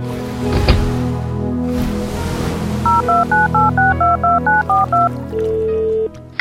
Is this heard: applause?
no

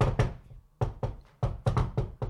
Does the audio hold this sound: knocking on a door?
yes

